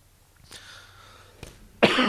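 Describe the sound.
A single short cough from a tickle in the throat bursts out near the end, loud and breathy, after a stretch of near silence broken by a couple of faint clicks.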